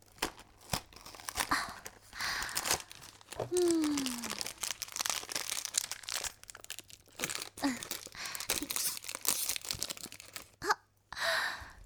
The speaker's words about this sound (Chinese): 啊，就先吃蘑菇粒好了。